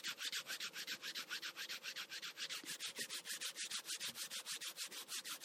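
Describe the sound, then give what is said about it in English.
Palms rub briskly together in a quick, even back-and-forth rhythm of many dry, swishing strokes, soft and heard alone. “Rub our palms together.”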